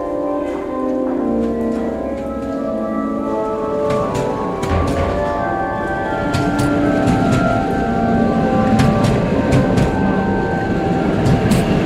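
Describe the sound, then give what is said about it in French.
A train with sleeping cars comes into a station platform, a steady metallic rumble and clatter of rail cars with sharp clicks and ringing tones that grows louder in the second half. “Wagon sypialny z numerami 257, 253, 255 zatrzymają się w sektorze pierwszym.”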